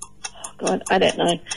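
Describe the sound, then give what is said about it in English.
A five-second quiz countdown timer ticks rapidly and evenly, with many sharp clicks a fraction of a second apart and a fuller sound swelling underneath in the second half. “Don't forget the five-second timer. Don't let that get in your head, all right?”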